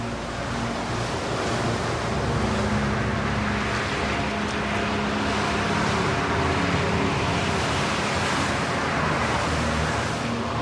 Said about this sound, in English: The wind blows savagely across the frozen terrain and swirls past jagged ice ridges.